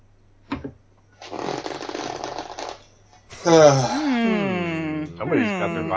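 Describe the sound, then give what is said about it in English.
A vibrator buzzes in a steady, rough drone for about two seconds after a short thump, then loud voices break in over the silence. “Somebody's got their vibrator.”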